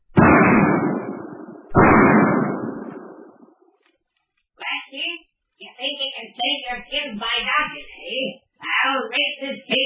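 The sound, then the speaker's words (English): Two gunshots fired inside a cave, each a loud, sharp blast that trails off in a long rumbling decay. Several people then talk back and forth. “Just as the force of the eruption begins to slacken, Kipp comes upon our friends from the rear of the cave and starts shooting.”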